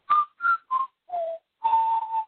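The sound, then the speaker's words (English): Whistling of a short tune in six clear notes: three quick notes around one pitch, a lower held note, then a longer note and a final one at a slightly higher pitch. No talk. “And I said we can all whistle that one.”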